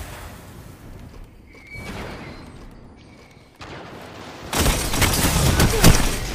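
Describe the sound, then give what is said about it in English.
A grenade explosion and gunfire in a Destiny 2 Control multiplayer match: scattered muffled shots and whooshes, then a loud, sustained blast roars through the last two seconds. “He's hit. He's hit with the grenade.”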